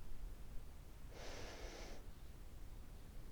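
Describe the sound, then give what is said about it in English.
A single soft breath, a gentle airy hiss lasting under a second, is heard alone over a quiet background while lying comfortably on a bed during a relaxation exercise. “the sound of the breath as it enters your body. And the sound it makes when it leaves your body.”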